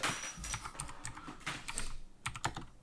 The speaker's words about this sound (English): I will, and I'll use my mechanical keyboard for it.